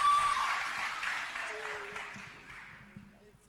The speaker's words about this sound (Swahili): Hebu mpigie makofi tafadhali.